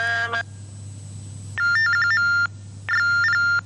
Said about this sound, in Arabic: انقطع الاتصال، ناخذ اتصال آخر